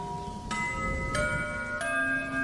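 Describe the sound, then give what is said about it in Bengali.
A clock strikes ten o'clock with three resonant bell strokes at even intervals, each ringing on with sustained overlapping tones that blend into a steady shimmer. “হঠাৎ ঘড়িতে দশটা বাজার ঘন্টা পড়ল”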